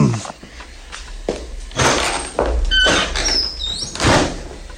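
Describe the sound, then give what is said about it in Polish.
A door being opened, with a few thumps and knocks followed by a high, creaking squeak toward the end. “Możesz śmiało otworzyć. Ha, już idę, Holmesie.”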